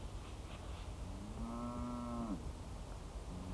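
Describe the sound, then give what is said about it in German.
A cow moos once, a long, low, drawn-out call from a herd of cattle being driven through a forest. The moo rises out of a constant background hiss. “Jetzt treibt der Ochsenhans seine Kühe sogar bis hierher.”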